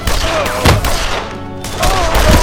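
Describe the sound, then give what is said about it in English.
Gunfire in a shootout: loud, harsh bursts of shots cracking over a dense, noisy background, with a briefer, quieter lull in the middle. “The companion's withering fire quickly evened up the odds, leaving only four gun hogs.”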